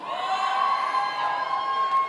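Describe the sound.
An audience cheers and shouts in a steady, lively roar, with individual voices calling out over the crowd noise.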